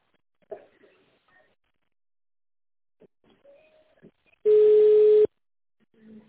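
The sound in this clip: A single steady telephone ringback tone sounds while a call is being transferred to a company manager. It is a loud, low, even beep under a second long, with faint scattered sounds before and after it.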